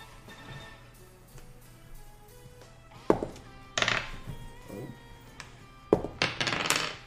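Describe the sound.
Dice roll to hit in a tabletop game: a few bursts of sharp clattering knocks on a hard surface, separated by quiet stretches, with louder tumbling near the end.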